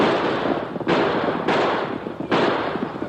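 Gunshots in a radio drama during a fast horseback chase: three loud, sharp bursts that break over a continuous, noisy roar, with no talk over them.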